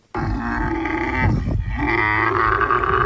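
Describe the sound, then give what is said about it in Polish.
A koala's call: a loud, deep grunting bellow that drones on steadily for about three seconds with one brief dip midway, heard alone without voices. “To dźwięk wydawany przez koalę.”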